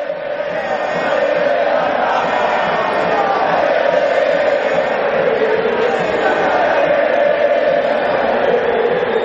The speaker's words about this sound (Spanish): el estadio está a rebosar. Entre el público expósito mira serio a su alrededor.